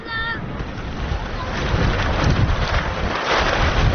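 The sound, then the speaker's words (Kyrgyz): Strong wind sweeps through a camp of colourful refugee tents, a loud, steady rushing roar that thickens into gusts as it goes on. “Удурган шамал жападан жалгыз башпаана эсептелген түркүн түстөгү чатырларды далбактатып учуруп кетчүдөй туюлат.”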